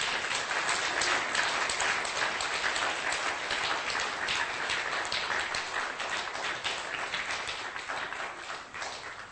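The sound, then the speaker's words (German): A church audience applauds during a service, a dense, even wash of many hands clapping that holds steady for several seconds and eases off slightly at the end. “Gib the Lord a hand. One more hand. Gib den Herrn einen Applaus.”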